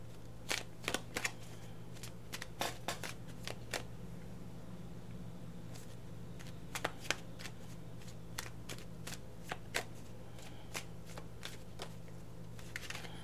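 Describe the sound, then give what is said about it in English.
A deck of oracle cards being shuffled: many quick, crisp riffling clicks in short bursts over a steady low hum, quieter stretches between the flurries. “is to actually pull an oracle card for COVID, the virus, and fall winter season. So let's get an oracle card out and see what messages the angels, ancestors, and protectors have for us at this time.”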